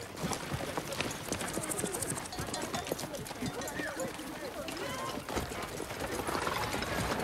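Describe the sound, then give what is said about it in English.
Hooves clip-clop in a quick, continuous patter as two horses pull a carriage. Many overlapping strikes keep an even, busy rhythm at a moderate level from start to finish. “A carriage is being pulled along by two horses.”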